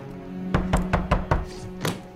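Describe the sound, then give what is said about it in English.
Knocking on an apartment door: five quick, firm raps in a row, then one more after a short pause, each a dull hollow thud. “there's a knock at her apartment door”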